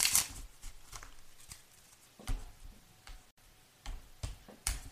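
Tarot cards are shuffled and drawn, making soft papery flicks and taps in a few scattered bursts, faint and with no talking.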